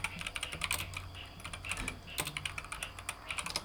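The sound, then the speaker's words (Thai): Rapid typing on a computer keyboard: many irregular, crisp keystroke clicks that arrive in uneven bursts at moderate loudness, with no voices. “เออแป๊บหนึ่งนะฮะ เดี๋ยวเดี๋ยวเดี๋ยวขอขอพิมพ์”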